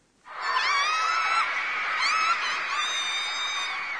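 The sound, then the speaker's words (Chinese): Girls screaming excitedly at the sight of their idol: a chorus of high-pitched shrieks from several voices, rising in quickly and then holding loud and steady to the end. “好像是看到自己偶像时尖叫的声音。 嗯，女孩子的尖叫声这样来表达”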